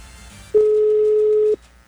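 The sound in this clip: A telephone line gives a single steady tone during a call attempt. It holds one constant pitch for about a second over a faint background.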